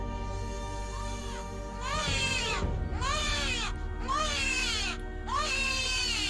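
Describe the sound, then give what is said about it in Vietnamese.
Eerie crying of infants: several drawn-out, wavering wails that rise and fall in pitch, repeating one after another over a steady low drone, with no talk. “Thì bất giác, những tiếng trẻ con khóc ma mị vang lên.”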